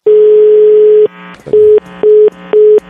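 A telephone call is dialed and goes unanswered: a loud steady tone holds for about a second, a brief clicking burst follows, then three short identical beeps repeat at an even pace.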